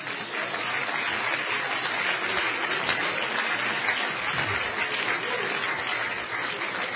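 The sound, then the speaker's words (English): Applause from a church audience, a dense, even crackle of many clapping hands that holds steady at moderate loudness for the full seven seconds, with no single voice standing out. “But let's everybody give the Lord a hand right now.”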